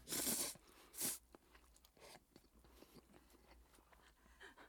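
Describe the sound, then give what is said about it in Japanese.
A person eats a snack with crunching and chewing: two loud, sharp crunches open the sequence, followed by steady, softer chewing and smacking to the end. “はい、もう一口。いい食べっぷりですね。”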